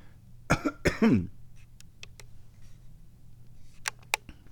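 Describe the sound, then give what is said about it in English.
A person coughs while briefly choking, giving a few harsh bursts in quick succession. The last cough has a strained voiced tail, and faint scattered clicks follow. “excuse me. Yeah. That's kind of choking there for a minute.”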